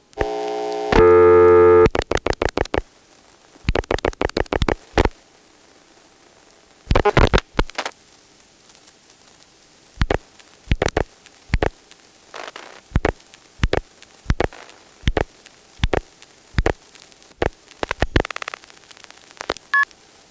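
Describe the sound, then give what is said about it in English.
Telephone exchange billing clicks and a key pulse after dialing 121 followed by a string of ones: a brief loud multi-tone burst, then many short sharp clicks and pulses in irregular groups separated by silence. “It did the billing clicks, and then it just sent a key pulse, and here it hangs. And I didn't hear it dial anything to get an outgoing trunk.”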